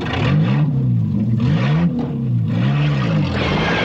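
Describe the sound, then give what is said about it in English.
A Land Rover's engine drives off as the vehicle escapes from armed guards, a loud, droning motor whose pitch rises and falls repeatedly as it revs and shifts, with no voices over it. “Mike fires a burst at the guards, then gets into the Land Rover beside Claire.”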